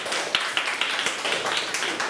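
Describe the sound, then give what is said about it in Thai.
A group clapping hands in applause during a lesson: many steady, evenly spaced claps in a brisk rhythm over a noisy, hissing background. “โอเคปรบมือให้กันดาหน่อยสุดยอดมาก”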